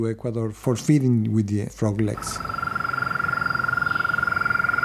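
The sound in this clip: A frog trills after a person speaks briefly. The trill is a rapid, even train of high-pitched pulses held at one steady pitch, with no break to the end.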